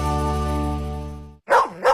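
A dog barks twice in quick succession, loud and sharp, right after a steady, buzzing harmonic tone fades out.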